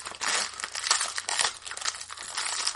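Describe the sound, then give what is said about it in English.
Crinkling and rustling of a wrapper as a 1991-92 Pro Set hockey card pack is opened: a steady, bright crackle that runs throughout, with several sharper crunches and no voices. “But, all right, let's get into this hockey card, shall we? We'll do this first. Here we go.”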